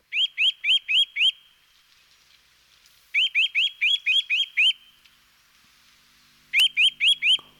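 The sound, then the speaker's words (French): Eurasian nuthatch calling in three loud bursts of rapid, high whistled notes. Each burst is a quick, evenly spaced series, with short quiet gaps between bursts. “Et ça donc, c'était le cri de la Sittelle, évidemment.”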